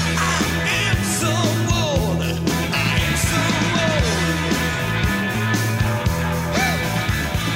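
A rock song plays with a full band, thick and continuous at an even level, with no pauses from start to finish.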